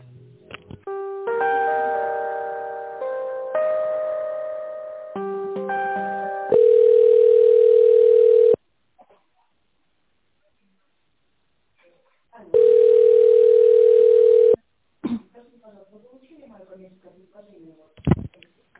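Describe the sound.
A telephone ringback tone sounds while calling a procurement manager: two long, steady single-pitch tones separated by a silent gap, preceded by a run of chiming, melodic electronic notes.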